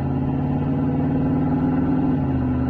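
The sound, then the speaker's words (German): A car engine at full throttle in a tunnel, tyres on dry asphalt, holding a loud, steady, dense roar with rich low harmonics from start to end and no voices. “Im Tunnel griffen die Räder sofort nach dem trockenen Asphalt. Steven gab Vollgas.”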